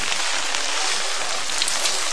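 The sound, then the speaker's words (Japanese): Steady rain falling, a dense, even hiss of many drops that runs unbroken from start to finish at moderate level, with no voices. “雨はもちろんやめません。風が少なくなったのは救いがある。”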